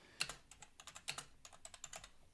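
Someone types on a computer keyboard, producing a quick, uneven run of many light key clicks. The clicks are faint, with no other sound.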